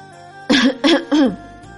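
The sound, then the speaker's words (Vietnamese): A dry cough comes in three quick, rough, fairly loud bursts in a row, alone with no talk around it. “Bạch Ngọc Đường ho khan một tiếng”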